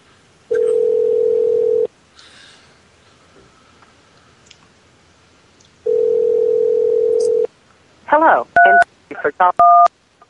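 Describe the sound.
A telephone line rings with two long, steady, mid-pitched tones separated by a pause of several seconds. A rapid run of touch-tone dialing beeps follows.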